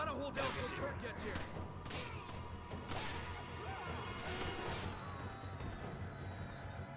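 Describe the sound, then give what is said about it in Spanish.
Video game combat hits, a kick and punches to the face, land as a few sharp smacking impacts over busy game noise, with people talking throughout. “Patada, un puñetazo en la cara. Puñetazo en la cara.”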